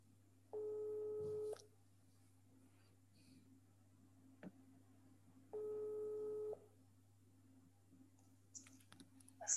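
Ringback tones of an outgoing phone call to a radio listener: two long, steady buzzing rings about four seconds apart, with a faint click between them and brief rustling near the end.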